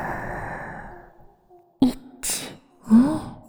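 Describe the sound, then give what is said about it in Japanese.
Deep breaths drawn in during a guided breathing exercise: a few short, soft, breathy bursts of air, unvoiced and separated by brief pauses, with no talking. “吸って深く”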